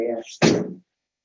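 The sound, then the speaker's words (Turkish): A door is pushed shut with one dull, heavy thud that fades within about half a second. A brief voiced sound comes just before it. “şu kapıyı hemen kapatıyorum”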